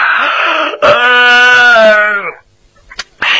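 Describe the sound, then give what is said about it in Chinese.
A storyteller imitates a yawn with a long, drawn-out voiced moan whose pitch slides downward at the end, followed by a short pause and a few brief breathy sounds. “假装着打了几个哈欠”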